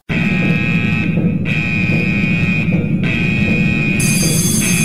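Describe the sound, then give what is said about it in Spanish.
An alarm sound effect used as a spoiler warning: a loud, steady, high electronic tone with buzzy overtones drones continuously and alone. It briefly thins twice, and a higher-pitched layer joins near the end. “Alarma roja. Alarma roja. Se ha detectado riesgo de spoiler en el área.”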